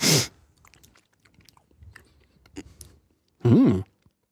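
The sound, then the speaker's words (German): Someone chews and smacks while tasting Einbecker Bockbier mustard. There are two louder bursts of mouth noise and scattered soft crunching and lip sounds between them. “Nee, der schmeckt scheiße. Ja, wirklich sehr lecker. Ja? Einbecker Bockbier-Senf. Okay, sehr lecker.”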